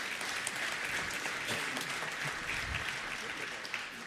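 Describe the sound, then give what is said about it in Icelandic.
Applause for a drummer from his big band and bossa nova colleagues: a dense, even wash of clapping, fairly soft and sustained without a break. “Já, gefum honum gott klapp.”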